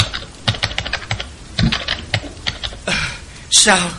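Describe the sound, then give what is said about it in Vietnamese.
Fingers tap rapidly on a computer keyboard, with many quick, uneven keystrokes in bursts, ending in a slightly louder flurry. “Những ngón tay của Tư Dao cứng đờ vì sợ hãi, gõ trên bàn phím.”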